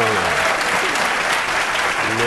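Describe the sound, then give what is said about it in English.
A quiz show studio audience applauds a contestant after a run of correct answers. The clapping is loud, dense and sustained throughout, with a voice briefly audible over it. “Yes, applaud for Roy. He deserves it.”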